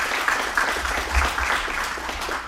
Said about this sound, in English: Give him a hand, y'all.